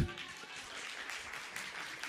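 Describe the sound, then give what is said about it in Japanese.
Faint audience applause during a talk, a soft, steady spatter of clapping that holds at a low level for a couple of seconds. “ありがとうございます。もう拍手も皆さん様になってきました。”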